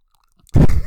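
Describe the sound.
A man makes an armpit noise with his arm: one short, loud, squelchy burst of air that flutters out and trails off, heard alone after near silence.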